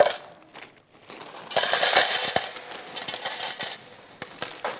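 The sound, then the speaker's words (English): Coins dropped into a bucket make a bright metallic clatter and jingle. The rattling runs almost continuously, swelling louder in the middle and then dying back to scattered clinks, with no voices over it. “I go in there and I drop some money in a bucket.”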